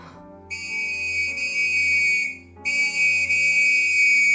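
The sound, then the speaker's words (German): A constable's police whistle blown shrilly from a window: two long, piercing, steady blasts, the first nearly two seconds long and the second following after a brief break and running to the end. “Auf das durchdringende Pfeifen des Wachtmeisters eilte ein Kollege herbei”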